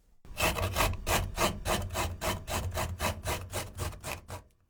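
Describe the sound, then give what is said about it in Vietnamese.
Peeled fresh ginger grated across the grain, giving many rapid, rhythmic rasping strokes of even loudness, each a short scratchy burst, with no talk. “Gọt vỏ gừng, sau đó đem mài.”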